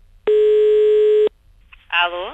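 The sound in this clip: A telephone tone sounds while a call is placed: one steady, low buzzing tone lasting about a second, then a short pause before a voice begins speaking.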